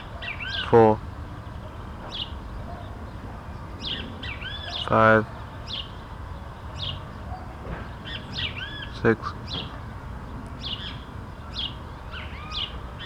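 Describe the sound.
Great kiskadee (Pitangus sulphuratus) calling from a tree: three louder, harsh harmonic calls spaced a few seconds apart stand out above many faint, thin high chirps scattered throughout.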